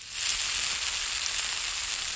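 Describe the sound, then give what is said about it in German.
Bratwursts sizzle in a frying pan, made by butchers in Sommerkahl. The crackle is dense and steady, loud and unbroken from start to finish, with no voices. “da brutzeln sie in der Pfanne, die evangelischen und die katholischen Bratwürste”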